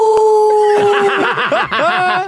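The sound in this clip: People imitate an animal howling at the moon, several voices making rhythmic, wavering 'ooh' howls that overlap, with laughter mixed in.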